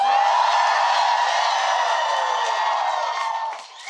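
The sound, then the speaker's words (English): Live convention audience at FlynnCon in San Diego cheering and whooping, a loud, dense, sustained roar of many voices that holds for nearly four seconds and dips slightly near the end. “we are coming at you live right now from FlynnCon 1 in San Diego, California. Audience, let's hear it.”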